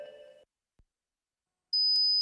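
A loud, steady, high-pitched ringing beep imitating tinnitus. It is held alone after a short tonal fragment and a brief gap of silence.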